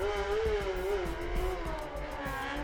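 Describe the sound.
A racing motorcycle sets off from the start of a road race, its engine giving a loud, steady, high-revving whine with rich, buzzing harmonics that hold throughout.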